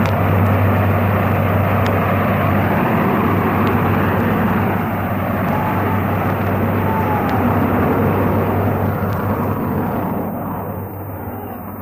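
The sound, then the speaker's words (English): Starship speeding through a metallic trench, rendered as a sound effect: a loud, continuous engine roar with a steady low hum beneath it that barely changes for about twelve seconds, easing slightly near the end. “starship speeds through the metallic trench”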